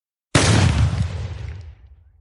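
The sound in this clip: A single loud gunshot from a 20-gauge single-shot Beretta shotgun, fired at a rabbit on a snowy hunt, with an abrupt blast that rolls off into a long, fading rumble.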